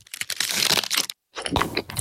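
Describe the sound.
A mint Aero bubbly chocolate bar is broken apart, giving crisp crackling and crunching in two bursts with a brief silent gap between them.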